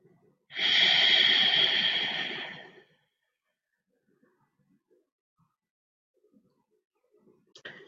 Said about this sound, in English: Deep inhale. And deep exhales, deep inhales and exhales.